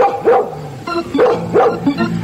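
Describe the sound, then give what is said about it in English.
A dog barks a few times, sharp and loud yaps in quick succession with short gaps between them, with no talk over them. “the smartest dog in the whole wide world”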